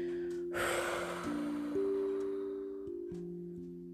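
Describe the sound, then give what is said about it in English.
A big exhale after holding the breath during a tension-and-release relaxation exercise: a breathy rush of air early on that slowly trails off, over steady, sustained low musical tones. “Keep holding it. Okay. Exhale and relax.”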